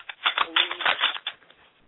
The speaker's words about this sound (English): I'm actually shuffling a set of oracle cards that our middle sister gave me.